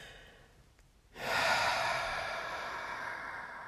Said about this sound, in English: Really push, push, push, push, push that breath out. Allow for that fire breath to move out of the mouth.